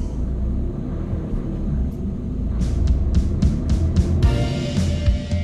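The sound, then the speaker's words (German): A car driving on a motorway gives a steady low rumble of engine and road noise that stays even throughout. In the second half, a short series of brief, faint ticking clicks sits above it. “Die fünf fahren angespannt weiter auf der Autobahn Richtung Süden”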